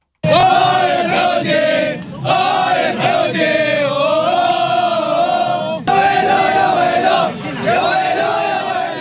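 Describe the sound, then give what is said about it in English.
World Cup fans in Russia chant and cheer before the opening match between Russia and Saudi Arabia. The massed voices are loud and sustained, sung in long phrases broken by two short pauses. “Well, World Cup excitement has begun. That's the sound of fans cheering before the games got started on Thursday.”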